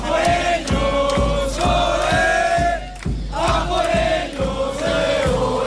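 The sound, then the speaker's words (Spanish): Spanish football supporters massed in the streets before their team's final, chanting and shouting loudly in a steady, repeating rhythm with a brief dip midway before the crowd surges again. “Y ya podéis escuchar cómo está el ambiente en estas calles, a punto de que llegue esa final en la que España quiere colocarse su segunda estrella. Así suena.”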